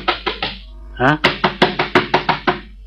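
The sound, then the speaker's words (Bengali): Knocking on a door: a quick run of three sharp raps, a short pause, then a longer, steady series of evenly spaced knocks, crisp and fairly loud. “ঠকঠকের ধরন শুনে মনে হচ্ছে দলের মেয়েটে নয়, peon নয়, অন্য কেউ।”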